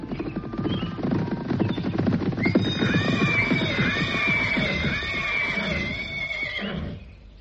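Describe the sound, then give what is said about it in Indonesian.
A horse whinnies as riders on horseback approach a hut around midday: one long, warbling, high neigh rises out of a dense, low, rumbling clatter and fades near the end. “Menjelang tengah hari, nampak beberapa orang berkuda menghampiri pondok kediaman Sudiryudo.”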